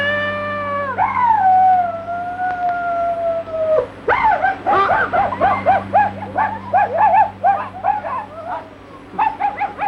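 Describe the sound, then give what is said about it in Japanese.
A wolf howls in a long, loud, drawn-out tone that slides downward. It is followed by a quick run of many short, yelping howls over a faint steady hum. “あ、来た。 狼が来たよ。”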